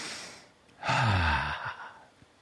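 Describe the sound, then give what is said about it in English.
One deep cleansing breath: a single loud, airy sigh that swells out of near silence, holds for under a second and then fades away. “Cleansing deep breath.”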